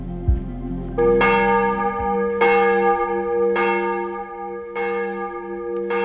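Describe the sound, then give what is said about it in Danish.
Church bells in Copenhagen ring for morning service, with heavy, evenly spaced strikes about a second apart. Each strike blooms into a rich, sustained tone that overlaps the next, loud and steady with no voices. “Der ringes til morgenandagt fra Vor Frue Kirke i København.”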